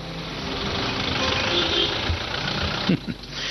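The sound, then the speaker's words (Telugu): Auto rickshaw engine idling, a steady rough rumble with a knocking, chugging texture throughout and a brief louder burst near the end. “ఇదిగో auto కూడా వచ్చింది.”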